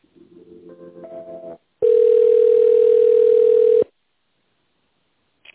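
A telephone tone plays while a call is transferred to a Rostov branch's tender department: a short series of tones steps upward, then one loud, steady tone holds for about two seconds and cuts off.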